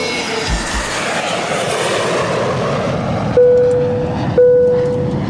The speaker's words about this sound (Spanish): En 10 minutos estaremos aterrizando en el aeropuerto internacional de Guadalajara.